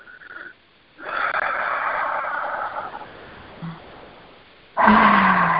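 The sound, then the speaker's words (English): Deep, slow breaths drawn in and let out during a relaxation exercise. A long, airy, rushing breath is followed by a pause, then another loud breath begins at the end. “Just take 3 deep breaths together.”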